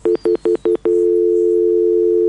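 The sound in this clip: Telephone line tone after a call drops: five short, evenly spaced beeps, then a steady continuous tone at the same pitch, loud and alone.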